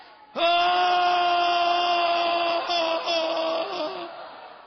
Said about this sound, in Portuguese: Vamos dar um grito como da corça. Oh! Vamos.